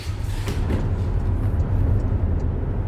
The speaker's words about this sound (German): dann fahre ich jetzt das erste Mal in meinem Leben Porsche.